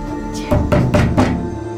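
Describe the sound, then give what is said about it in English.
Four heavy, violent kicks and blows strike a door in quick, uneven succession, each a loud dull thud. “The door shudders. Heavy blows. Hard, violent kicks.”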